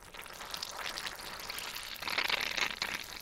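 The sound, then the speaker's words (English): Fermenting kimchi brine fizzes and bubbles as the cabbage is pressed down in its container: a faint, continuous crackling hiss that grows louder toward the end. “Okay, that's got some pretty serious bubble action going on.”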